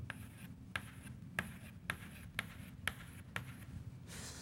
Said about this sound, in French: Donc, j'ai dessiné un plan atomique. Maintenant, je dessine un autre.